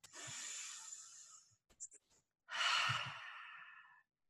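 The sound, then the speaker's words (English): A deep breath is drawn in and then slowly let out. The two long, airy breaths are separated by a short pause and sound soft and fairly faint. “I'm going to ask you to take a deep breath, and viewers that are watching at home, remember to take that deep breath with me.”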